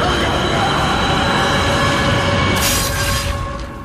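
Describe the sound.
A train rumbling through a tunnel, a loud, dense, continuous roar with steady tonal whine in the rail noise, a bright hissing surge near the end before the level starts to drop.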